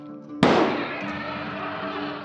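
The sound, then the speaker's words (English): A single gunshot sound effect, a police officer firing his handgun at a crouching creature by a roadside, cracks out sharply after a low hum and dies away in a long, rumbling decaying tail. “Startled by the creature's physical features and behavior, Officer Matthews pulled out his gun and shot it.”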